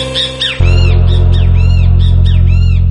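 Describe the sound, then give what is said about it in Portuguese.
A small bird calling in a quick series of high, sharp chirps, each sliding downward, heard over a loud, steady low bass drone. “passarinho. Que som é esse?”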